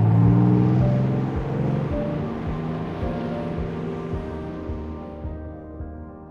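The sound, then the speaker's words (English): Motors of passing ships, such as a cruise liner or trawler, recorded underwater amid moving water: a steady, loud, low droning hum with layered tonal lines, holding constant and easing slightly toward the end. “the motion of the water is very loud and it's ever present as you're listening. Hearing the motors of other ships like a cruise liner or a trawler motor.”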